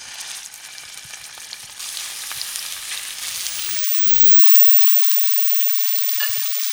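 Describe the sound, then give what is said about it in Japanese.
Meat-wrapped rice balls, rolled in thin shabu-shabu-style sliced meat, sizzle in well-heated salad oil in a frying pan over high heat. The quieter frying hiss jumps louder after a couple of seconds and then stays a steady, dense crackle. “フライパンにサラダ油を敷いてよく熱したら、そこへ肉巻きおにぎりを入れます。”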